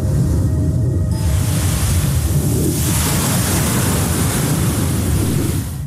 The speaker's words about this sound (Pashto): د شمال له پښه او د څپو له څړپا پرته ژغو ژغ نه و.